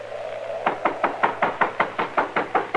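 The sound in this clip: Knuckles knock on a door in a long, even run of sharp, hollow raps, repeated at a steady brisk rhythm and standing out clearly against a faint background hum.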